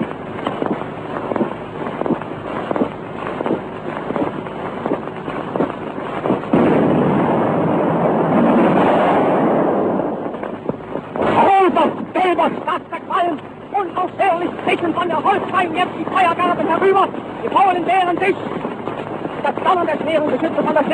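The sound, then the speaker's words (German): Battleship gunfire, with salvos and shell impacts, fired about 200 metres away at the Westerplatte. It comes through as a broad roaring rumble and a sharp crack under continuous spoken commentary on a noisy old recording. “Immer wieder die kurzen Einschläge der Granaten. Jetzt wieder eine Salve hoch hereingeschallt.”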